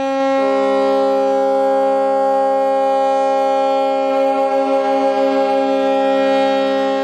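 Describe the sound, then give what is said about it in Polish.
Air raid sirens sound at a ceremony on the Westerplatte peninsula marking the anniversary of the outbreak of the Second World War, a loud, sustained wail holding a steady pitch throughout. “Spowity ciemnością półwysep obudziły syreny alarmowe.”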